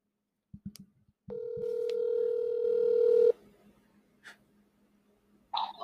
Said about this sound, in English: Columbus Thinks, where we cold call people and get their thoughts on a wide array of different things. So I will take it away with our first caller.